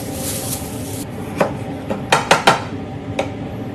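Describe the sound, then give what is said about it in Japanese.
Carrots being chopped with a knife on a cutting board for yellow curry, several sharp wooden clacks in an uneven rhythm, a quick cluster in the middle, over a steady faint background hiss. “人参切ります”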